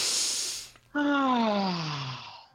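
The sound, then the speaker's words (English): A deep breath: a noisy inhale of nearly a second, a brief pause, then a long voiced exhale whose pitch slowly falls. The sound is fairly loud with no other sounds around it. “I think we can take a breath. Yes. And deep breath.”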